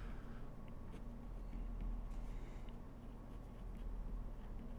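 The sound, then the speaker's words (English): Faint, continuous scratching of a pen writing something down on paper, a soft steady rasp with no other sounds. “I'm actually going to write that down.”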